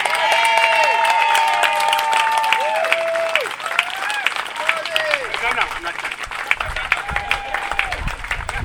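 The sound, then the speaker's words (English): Applause from a crowd cheering a duo on stage. Dense clapping runs throughout, with voices and cheering calls carried over it. “applause.”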